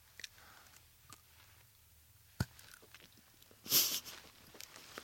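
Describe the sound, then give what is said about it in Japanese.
Biting into an ice-coated frozen red bean bar: faint small clicks, one sharp snap, then a louder crisp crunch near the end, with quiet gaps between. “かじってみるよ。いただきます。”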